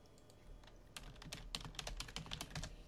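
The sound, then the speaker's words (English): Typing on a computer keyboard during a Zoom chat: faint, irregular key clicks that quicken into a steady patter of taps, heard alone. “It's Zoom playing up on me. I've just had to type in the chat.”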